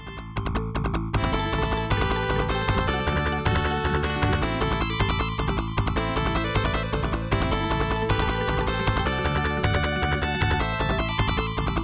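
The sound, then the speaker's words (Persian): Western-style video game soundtrack music plays continuously, loud and densely layered, with a steady driving rhythm that evokes galloping horse hoofbeats. “یعنی قشنگ احساس میکنی پشت اسب نشستی و داری هفت‌تیر کشی میکنی، همینجوری همه رو این بر اون بر میکشی. مثلا ریتم اسب تو آهنگ هست.”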